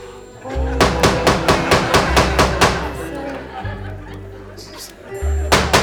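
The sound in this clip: Hammer blows ring out while a painting is hung on a wall: a quick run of many sharp knocks, then a pause and a few more strikes near the end, all over a sustained musical backdrop.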